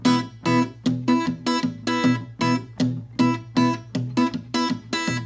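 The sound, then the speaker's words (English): Fingerpicked acoustic guitar in a fully syncopated pattern, a thumbed bass line under pinched treble notes, giving many bright, closely spaced plucks with uneven, off-beat accents and a full, ringing tone, played alone. “And then I would graduate to kind of the final version with this, with the full syncopation, and that would sound like this.”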